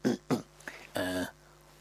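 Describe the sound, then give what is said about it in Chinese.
A voice acting out a throat clearing: two short, rough bursts, a small catch, then a longer voiced grunt, all fairly quiet with pauses between them. “阿斯哈清了清嗓子”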